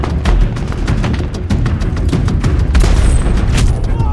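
A roof-mounted heavy machine gun on a vehicle fires sustained suppressing bursts, a loud, dense, rapid stream of shots under booming reports.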